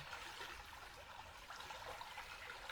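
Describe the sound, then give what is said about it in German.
Faint splashing and trickling water, a steady, even babble that runs unbroken from start to end without any voices. “Und es kann sein, dass dieses Plätschern nun noch intensiver für dich wird.”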